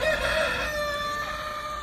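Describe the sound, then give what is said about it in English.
Roosters crow at a 4-H fair, a sustained, strained harmonic call held for nearly two seconds at moderate loudness, with a faint background hum. “Once you walk past the roosters”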